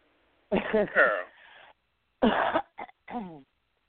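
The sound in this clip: Coughing and throat clearing in a few loud, rasping bursts separated by short pauses, some harsh and noisy, others with a voiced, gravelly tone.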